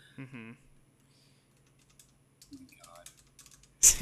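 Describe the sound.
Typing on a computer keyboard. A short voice sound comes first, then a pause, then a run of light, quick key clicks, ending in a louder burst of clatter.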